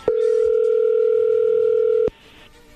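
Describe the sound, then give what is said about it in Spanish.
A steady telephone dial tone while a call to a man's wife is being placed, one continuous even tone held for about two seconds before it cuts off and leaves near quiet. “vamos a marcarle, Héctor, a tu esposa Yolanda y a ver qué sucede.”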